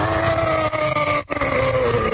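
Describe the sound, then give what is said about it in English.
An aircraft engine is run up before takeoff, a loud steady drone with strong tonal harmonics that dips briefly midway before holding again. “And we sit for a second, and then he guns his motor.”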